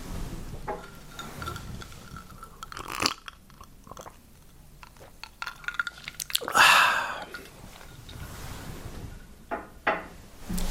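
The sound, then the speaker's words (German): A person pausing to take a drink, with scattered small mouth clicks and swallows, a brief louder rush midway, and otherwise quiet stretches with no talk. “ich muss kurz etwas trinken”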